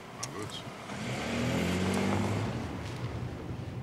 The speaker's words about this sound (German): Chef, geben Sie Gas.